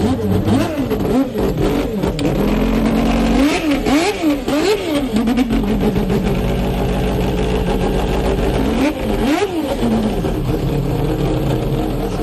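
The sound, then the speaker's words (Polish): Roaring Wankel rotary engine of the Mazda race car that won the 1991 Le Mans 24-hour race, loud and continuous, with repeated rev rises and falls in pitch and a dense, buzzy high-pitched tone throughout. “Na pamiątkę zasług pana Yamamoto to posłuchajmy, jak pięknie brzmiał silnik tego właśnie samochodu.”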